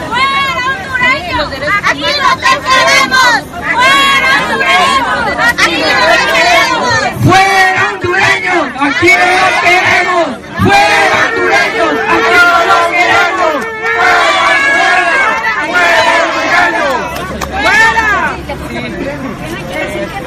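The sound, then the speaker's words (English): A crowd of Mexican citizens protesting a migrant caravan fills the scene with loud, continuous shouting and chanting, many voices overlapping in a dense, agitated babble throughout. “So what you heard there was Mexican citizens protesting this invasion”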